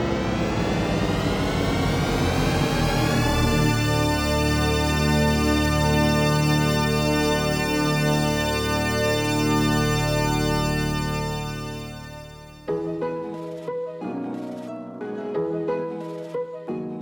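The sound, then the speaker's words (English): The THX Deep Note audio logo starts as a swirl of many drifting, gliding tones. They converge into a huge, sustained chord that spans very low to high pitches, holds loudly for several seconds, then fades as other tonal sounds enter. “That somewhat ominous sound you just heard is the THX audio logo known as the Deep Note. At first, it seems to go everywhere and nowhere, and then comes together at the end for a larger-than-life resolution.”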